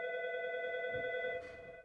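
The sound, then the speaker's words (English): An emergency telephone rings with a steady, continuous electronic tone made of several layered pitches, holding level before dropping somewhat quieter toward the end. “It's the emergency phone from Lombard. Can you answer? Emergency phone.”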